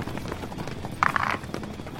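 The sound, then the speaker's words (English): Galloping horses as a sound effect in a tabletop role-playing game. Hooves beat in a rapid, clattering rhythm, with a brief louder burst of hoofbeats midway. “you begin to sprint toward the horses as they barrel toward you.”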